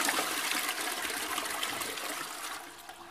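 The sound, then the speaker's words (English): A toilet flush gives a loud, rushing gush of water that thins to a fading trickle over about three seconds, with no voices. “apologies for the toilet flush that occurred like 3 seconds ago.”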